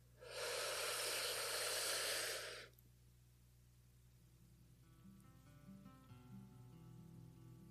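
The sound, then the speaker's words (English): One deep breath drawn in, a loud, breathy rush lasting about two seconds, followed by a much quieter stretch with only faint background sound. “So let's go ahead and take a deep breath in.”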